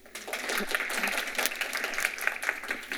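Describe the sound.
Audience applause welcomes a speaker, a dense, steady clatter of many hands clapping that carries on at a moderate level for about three seconds.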